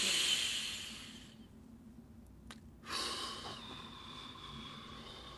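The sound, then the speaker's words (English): A deep, slow breath during a relaxation exercise: two long airy hisses of air drawn and released, soft and quiet, separated by a short near-silent pause. “And another breath.”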